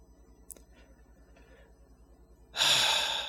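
A deep, audible inhale, gasp-like and fairly loud, arrives near the end after a quiet stretch with one faint tick, taken to steady nerves.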